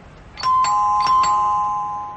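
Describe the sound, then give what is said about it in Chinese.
Doorbell chime rings as a caller arrives, with a few bright struck tones in quick succession whose ringing notes sustain and slowly fade, heard alone without voices. “两个人正说着，门铃突然响了。”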